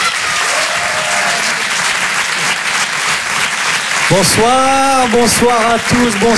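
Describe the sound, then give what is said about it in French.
An audience applauds as a comedian is introduced at a live comedy show: dense, steady clapping for about four seconds, then loud voiced cheering and shouts over continued applause. “Faites du bruit, un maximum de bruit s'il vous plaît pour Jason Brokers.”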